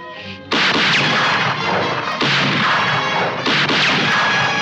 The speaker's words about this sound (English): Fire a few shots, maybe it'll turn around.